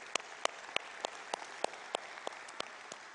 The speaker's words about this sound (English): Though, for those of you in the room, would you please give a big hand to our online television audience?